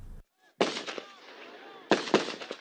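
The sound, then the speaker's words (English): Gunfire from a settlement security guard on a road outside the Palestinian village of Sa'ir: loud, sharp reports in two clusters, each with a few rapid cracks and a lingering rough decay between bursts. “Israel's army said it was called to reports of Palestinians throwing stones and that a settlement security guard opened fire.”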